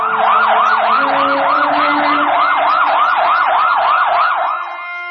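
An ambulance siren wails loudly and continuously in quick, even rising-and-falling sweeps over a low steady tone, easing slightly in volume at the very end.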